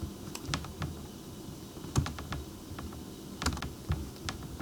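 Typing on a computer keyboard to look something up: irregular bursts of crisp keystrokes with short pauses between them, clicking along quietly with no talking.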